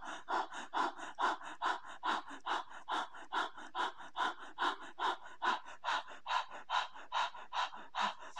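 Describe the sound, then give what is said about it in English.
Rapid, deliberate breathing sped up almost to hyperventilation: many quick, even in-and-out breaths follow one another in a steady, fast rhythm, fairly soft and breathy, with no speech. “So you're going to speed up your breath and it's going to almost seem like you're hyperventilating”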